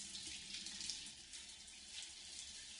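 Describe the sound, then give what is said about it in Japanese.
Hot water running from a tap in a steady, faint hiss that holds unbroken without pause, with no voices. “お湯が流れる。”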